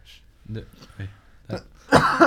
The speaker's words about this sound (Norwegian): Ikke host i hatten